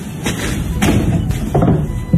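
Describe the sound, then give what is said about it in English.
Shutters are opened in a child's bedroom with a few dull thumps and knocks spaced apart, over a low rumbling bed of noise. “Open the curtains 30%, just so you have enough access to the shutters. Now, open the shutters.”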